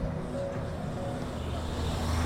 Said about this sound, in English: City buses moving on by.